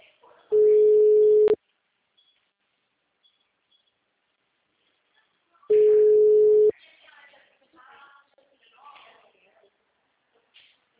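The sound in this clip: Ringback tone on an outgoing phone call: two steady, mid-pitched tones, each about a second long and about five seconds apart, followed by faint, intermittent talk.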